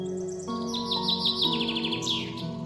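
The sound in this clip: Birds in a forest chirp in quick, repeated high tweets that come in short runs over a steady droning tonal background. The calls stay fairly soft throughout.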